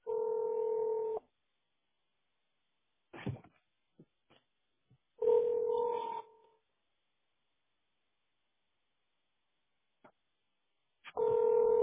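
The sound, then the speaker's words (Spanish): A telephone dialing a call: a few long, steady electronic tones separated by short clicks and stretches of silence, with no talk. “Estoy llamando a mi socio para preguntarle por qué no lo consigo aquí.”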